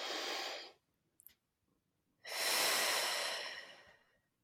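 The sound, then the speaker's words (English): A person breathing deeply on request: a long breathy exhale, a brief faint snuffle, then a second, longer and louder breath, with quiet gaps between them. “So I'm going to ask you to breathe for a moment.”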